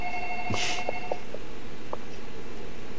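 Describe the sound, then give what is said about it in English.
A telephone rings in the 1998 horror film Ringu. Steady electronic ring tones and short tonal blips sit over a constant background hiss. “Shouldn't it end? Like, we ain't pick up the voicemail. My phone don't even ring that long.”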